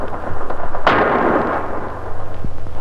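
A heavy artillery bombardment sounds as one deep, loud blast that bursts suddenly and rolls off over about a second. It sits over a steady, pulsing low drone that continues before and after the explosion.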